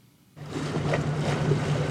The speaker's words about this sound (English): I'm on the south bank of the River Thames. I'm just across from Parliament and Big Ben.